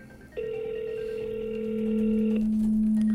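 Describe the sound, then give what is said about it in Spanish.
Telephone ringing tone on an unanswered call: a steady electronic tone starts suddenly and holds for about two seconds, then a lower steady tone carries on alone to the end. “Está llamando, pero lamentablemente no contestan, no contestan.”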